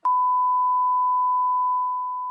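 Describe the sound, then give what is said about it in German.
A censor bleep covers a spoken name: one steady, pure mid-pitched tone that holds level for about two seconds and then eases slightly quieter before it cuts off. “Wir piepen den Namen später auch.”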